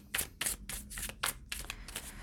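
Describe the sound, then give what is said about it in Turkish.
Tarot cards are handled and drawn from a deck during a love reading, giving a quick run of soft, crisp papery swishes in uneven bursts with no talking. “Şuradan çekelim size kart.”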